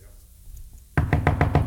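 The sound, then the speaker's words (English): Knocking: a quick, even series of sharp raps that starts abruptly after near silence and keeps a steady rhythm to the end. “Knock, knock. And the Lord's a-knocking.”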